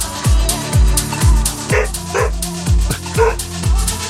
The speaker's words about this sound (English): that'd be the dog, by the way, if anyone just wondered what that was. New puppy in the house.